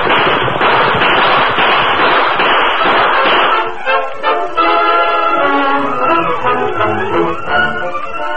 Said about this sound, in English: We'll give them another volley from here. Keep shooting as you ride